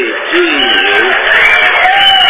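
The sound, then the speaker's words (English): Applause and cheering from an audience at a public meeting, a steady, dense wash of claps with whooping voices mixed in, holding at a fairly even loudness throughout. “if you're going to give us an applause, you could do better than that”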